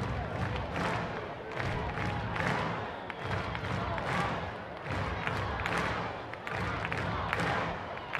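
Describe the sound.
A baseball stadium crowd cheers during a tense game, with a steady broad roar that swells and eases in repeated surges.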